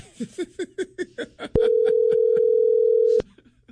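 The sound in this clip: Phone call tones during a repeat call attempt: a quick run of short regular pulses, then a loud, steady, single-pitched electronic tone held for about a second and a half before cutting off.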